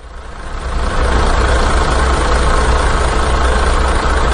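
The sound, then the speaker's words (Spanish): A truck engine idles as the truck arrives. Its low rumble swells over the first second, then holds loud and steady to the end. “Ah, mira, si está aquí el camión.”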